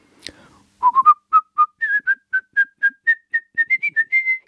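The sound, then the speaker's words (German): A person whistling a melody from the third movement of a piano concerto: many short, clear notes in a lively rhythm whose pitch climbs gradually, after a brief tap at the start. “Wenn Sie also nachher im dritten Satz des Klavierkonzerts diese Melodie hören, ich versuche sie mal zu pfeifen”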